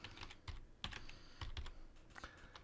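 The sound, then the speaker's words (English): Many quick keystrokes typed on a computer keyboard, faint and irregular in rhythm, with short bursts of clicks and small pauses between them. “Let's type that up.”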